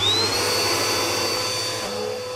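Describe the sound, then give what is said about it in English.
A vacuum cleaner sucks up spilled chocolate-frosted donut crumbs, its loud steady motor roar carrying a high whine that climbs briefly at the start and then holds. “Can you guess what that noise is? Why, it's a vacuum. And why am I vacuuming? Because I spilled chocolate-frosted donut crumbs everywhere.”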